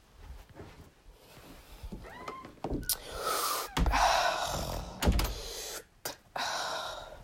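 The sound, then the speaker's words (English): A few deep breaths taken before a study session, each a loud, airy rush of air, broken up by short pauses and a few sharp clicks. “Just some deep breaths before I have to study.”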